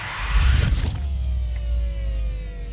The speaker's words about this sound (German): Ich fahre die Kommandobrücke ein.